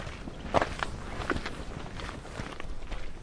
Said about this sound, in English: We began with a hike up Stony Man Mountain.